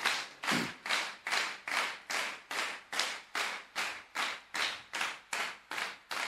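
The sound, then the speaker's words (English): Audience hands clapping together in a steady, even rhythm, many evenly spaced sharp claps of equal loudness with no voices over them. “Oh, put your hands together. Bon sema ya papa. Bon sema ya papa. Fan sembushia no. Fan sembushia no. Are you putting your hands together?”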